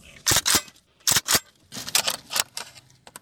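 Sharp metallic clicks and snaps come from a Kalashnikov rifle being cleaned at home, several crisp bursts often falling in quick pairs, separated by short silences.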